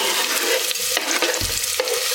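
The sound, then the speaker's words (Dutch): Onions and garlic sizzle in a very hot frying pan, a steady bright crackling hiss broken by a few scraping stirs of a utensil. “Uitjes gaan erbij. En Fruit het rustig tot ze glazig zijn. Doe ik de knoflook erbij.”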